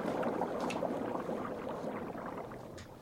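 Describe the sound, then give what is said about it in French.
Pasta water boiling in a pot makes a faint, steady bubbling and burbling throughout, easing slightly toward the end. “Ceci n'est pas un jacuzzi en route, mais l'eau des pattes qui boue.”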